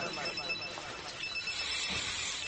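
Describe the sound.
A telephone rings during a lesson on ritual purification, its faint, steady high electronic tones sounding intermittently beneath ongoing talk.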